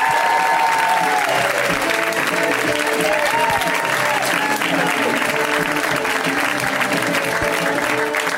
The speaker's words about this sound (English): Ladies and gentlemen, let's hear it for Teresa Lee. Give it up for her.